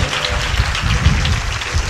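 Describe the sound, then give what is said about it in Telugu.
An audience claps together to glorify God during a Telugu church service, a dense, steady wash of many hands applauding without pause. “ఒక్కసారి చప్పట్లతో దేవుని గలపరుస్తారా”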